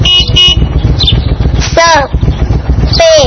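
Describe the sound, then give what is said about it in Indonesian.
A motorcycle engine drones loudly and steadily, and a few short horn toots ring out over it. “ternyata sepeda motor. Sepeda motor.”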